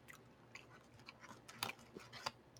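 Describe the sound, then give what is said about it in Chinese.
Quiet, close chewing of softened food after a diet, with soft mushy bites punctuated by a few sharper crunches and no talking. “我自己现在戴耳机，我会看到我在吃东西的声音，好恶啊！”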